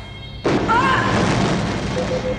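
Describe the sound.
An explosion effect for starship weapons fire in a community theater stage battle scene: a sudden loud blast bursts in, then a sustained, roaring rumble lingers with brief faint whistling tones.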